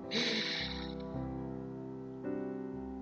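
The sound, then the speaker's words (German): A slow breath drawn in through the nose during a guided breathing exercise, a soft airy hiss that swells and fades over sustained mellow musical tones. “Noch einmal durch die Nase ein”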